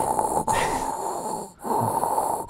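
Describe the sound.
A voice imitates Darth Vader's mechanical respirator breathing through a karaoke microphone: a loud, hissing, rasping draw of air repeated in a few steady cycles, each separated by a brief pause.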